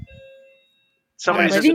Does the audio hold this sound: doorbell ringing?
yes